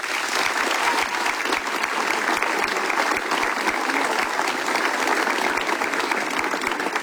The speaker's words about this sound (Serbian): a to je meritalo jedan veli aplauz se, seh vas.